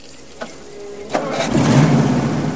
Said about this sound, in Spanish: El coche arranca.